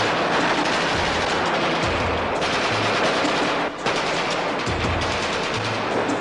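Machine gun fire from automatic weapons used in training: dense, loud, unbroken bursts of rapid shots that fill the whole stretch, with only one very brief break about midway.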